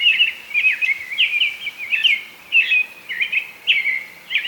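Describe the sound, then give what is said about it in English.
An American robin sings a steady series of short, clear, warbled phrases, high in pitch and separated by brief pauses, with no other sound. “This is what an American robin song sounds like.”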